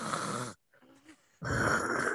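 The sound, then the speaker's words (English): A person's voice imitates loud snoring while awake, like someone heard in a doctor's waiting room, making two harsh, rasping snorts separated by a short, quieter gap. “If you sound like you're awake snoring, you need to see someone.”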